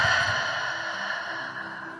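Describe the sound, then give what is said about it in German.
A deep, drawn-out breath, in through the nose and out through an open mouth, heard as a soft, airy rush that gradually fades away, with no talking. “nimm erst einmal ein paar tiefe Atemzüge durch die Nase ein und durch den geöffneten Mund lang aus.”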